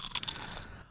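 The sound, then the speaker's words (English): Crisp crunching of a buñuelo being bitten: a quick cluster of dry, crackling bursts that break apart and fade into faint chewing, with no talk over it. “That was the sound of the crunch of a buñuelo.”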